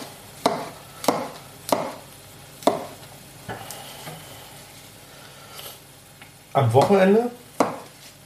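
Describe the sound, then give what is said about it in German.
Knife chopping mushrooms into small pieces: a few sharp, separate strikes on a board at a slow, uneven pace, with a denser burst near the end. “So, Champis klein schneiden.”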